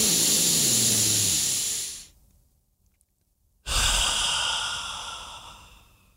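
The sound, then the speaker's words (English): A deep breath: a long, airy rush of breath lasting about two seconds, a short silent pause, then another long, hissing breath, with no talking. “Remember, take a breath. Stop. Take a breath. And relax. Ready? Stop. Take a breath.”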